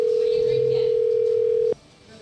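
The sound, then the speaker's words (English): A telephone dial tone while placing a call: one steady, pure, mid-pitched hum that holds unbroken, then cuts off abruptly, leaving faint background noise. “Might have to try calling Jesus, I guess.”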